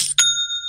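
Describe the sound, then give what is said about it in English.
An online store's sale notification chime: a short, bright metallic ding whose clear ringing tone sustains and slowly fades, heard alone without voices. “Oh my gosh, is there a better sound in the world? It sparks joy and provides instant happiness. And what it is that's the sound of another sale on Shopify,”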